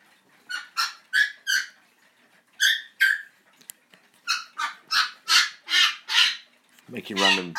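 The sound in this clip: A pet parrot makes a string of random squawks and calls: harsh, high, clipped bursts in quick groups with short pauses between them, then a lower, raspy noise at the end. No talk.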